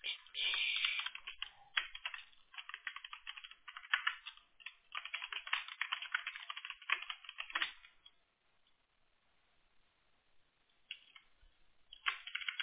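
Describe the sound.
Computer keyboard typing while text is copied and pasted: fast, continuous clicking of keys that stops for about three seconds, then resumes in short bursts.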